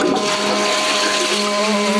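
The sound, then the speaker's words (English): A toilet flushes with a steady rush of water carrying a sustained tonal hum. The sound stays loud and even for the whole moment, with no talk. “So that's most toilets in the world. We're not saying all. We're saying the majority of the world's toilets flush in the key of G sharp.”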